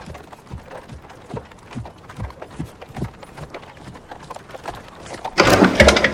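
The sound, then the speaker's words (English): A horse and cart pass along the outside of a wood, with many evenly spaced hoof clops in a steady rhythm, then a louder, noisy swell near the end. “A horse and cart comes along the outside of the wood.”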